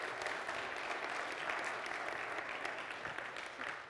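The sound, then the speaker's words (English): A church audience applauds its mothers and mothers-to-be on Mother's Day with quiet, steady clapping that holds evenly and eases off at the very end. “Let's give all our mothers and mothers-to-be a big hand.”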